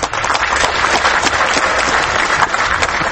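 Applause from an audience at an award ceremony: dense, steady clapping from many hands that keeps an even loudness throughout, with a few sharper claps popping out and no talking over it.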